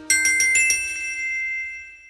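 A phone message notification tone plays a quick run of about five bright chime notes. They ring on together and fade slowly, with no voices.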